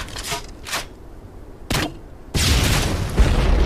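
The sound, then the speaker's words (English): A grenade launcher fires in a few sharp, booming bursts, then a longer, loud roar of blasts that carries to the end. “Ain't nothing to launch grenades with like a grenade launcher”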